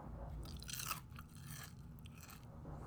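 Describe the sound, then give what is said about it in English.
Someone chomping on chips: faint, crisp crunching chews repeated at an uneven pace, quiet and close with no talk over them. “Bro, could you just not eat chips for like 15 minutes while I podcast? All right. Could you just like, they can hear that chomping when you eat chips.”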